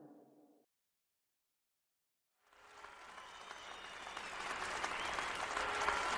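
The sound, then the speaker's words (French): Enthusiastic applause from a theatre audience at the Comédie-Française, cheering the 1778 performance of Voltaire's final play, Irène. It follows a brief sound and a short silence, then swells into dense clapping that grows steadily louder. “Ce 30 mars 1778, à la Comédie française, les spectateurs enthousiastes applaudissent à tout rompre la représentation”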